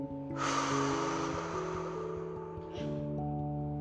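Slow, calm breathing during a children's meditation exercise: one long, airy breath of about two seconds, then a brief second breath, over soft sustained music tones.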